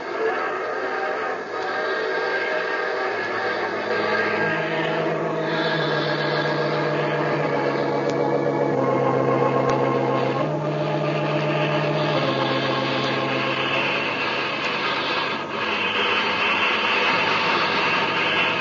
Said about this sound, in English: Headlight of the speeding train probes ahead to snatch ribbons of steel out of the darkness, thrusting them under the heavy wheels to be ground into shadows for the wandering night to consume. Mile after mile, the iron monster roars its challenge to space.